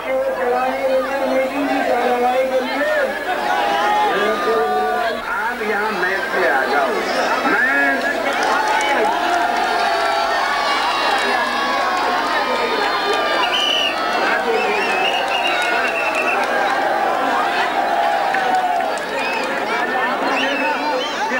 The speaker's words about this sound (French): Vous étiez là au moment d'un meeting, vous avez filmé l'accueil triomphal des foules qui scandent son nom, Poulan Devi, quand elle sort du train.